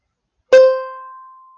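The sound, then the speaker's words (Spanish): A high-pitched tone, used as the reference for the high sound in a children's listening game, starts with a sharp, bright strike. A clear, thin ringing note then slowly fades over about a second. “Y os voy a presentar al sonido agudo, que suena así.”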